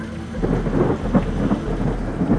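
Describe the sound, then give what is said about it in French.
Thunder rolls in low, rumbling swells while torrential rain pours steadily underneath, forming a continuous, heavy wash of sound. “Pendant ce temps, la foudre s'est mise à clignoter, le tonnerre a roulé et la pluie s'est enfin déversée en torrent.”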